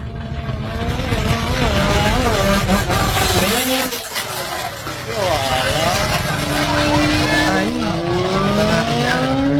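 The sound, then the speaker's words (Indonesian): A motorcycle speeds away, its engine revving loudly with whining tones that repeatedly rise and fall in pitch over a continuous rough roar. “Lihat, lari motor kencang, lah.”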